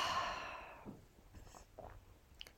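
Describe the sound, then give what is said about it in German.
A deep breath exhaled through the mouth during a guided breathing exercise: one long, breathy rush of air that fades over about a second, followed by quiet with a few faint small sounds. “Tief durch die Nase einatmen. Und durch den Mund wieder aus.”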